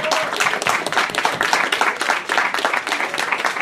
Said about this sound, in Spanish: me gustaría darle un fuerte aplauso a todos ustedes por acompañarnos.